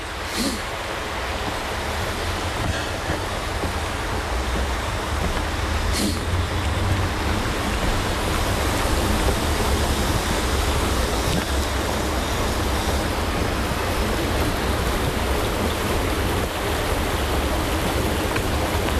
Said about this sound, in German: Wir hören jetzt, wie der Wildbach ganz ruhig fließt.